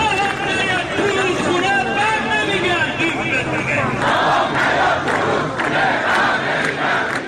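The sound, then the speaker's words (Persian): A large crowd of protesting farmers shouts near Khaju Bridge in Isfahan. Many voices cry out together in a dense, loud, continuous roar of chanting and yelling. “آن روز هم که وزیر آمد، انبوهی از معترضان در حوالی پل خاجو انتظارش را می کشیدند.”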